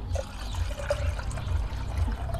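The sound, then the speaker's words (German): Cold water runs into a glass as it is filled, a faint, steady trickling and pouring with soft watery pulses. “Das Ganze natürlich mit kaltem Wasser dann auffüllen.”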